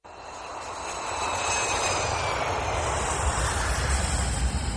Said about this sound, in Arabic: على فكرة دي أصغر طيارة ركبتها في حياتي، معقول دي هتصمد بينا لحد ما نوصل نيويورك؟